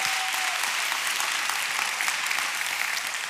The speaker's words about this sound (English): Can you give it up for Samara?